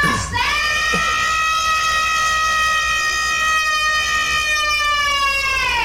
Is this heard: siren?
yes